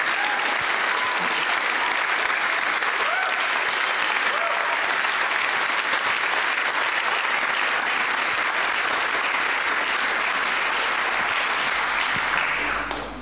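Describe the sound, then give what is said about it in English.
An audience gives a round of applause at a church service, a dense, steady clapping that holds evenly for about thirteen seconds before tapering off at the end. “So let's just recognise that by giving a little round of applause.”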